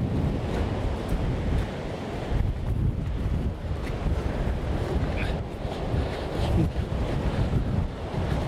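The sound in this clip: Gale-force wind and surf along a seafront during a storm, a loud, continuous roaring rush with gusty buffeting, without any talk.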